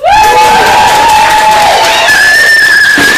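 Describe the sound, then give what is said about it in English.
Audience cheering and applause at a poetry night in an art gallery in Waterloo, a loud, steady roar of clapping and shouts with sustained whistling tones running through it. “That's a group of people in an audience. Tonight is brought to you in front of a live studio audience.”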